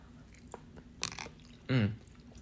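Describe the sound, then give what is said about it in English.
Someone eats and chews food, making a few soft, wet, crunchy mouth sounds and clicks, faint against near silence, followed by a short, louder voiced murmur. “Forgive me if you get a little ASMR moment, but I am eating and I am hungry and I don't care if you don't like it.”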